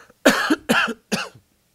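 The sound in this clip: Three harsh, loud coughs in quick succession, alone with no talk, each a burst of rough, breathy noise with a short tail.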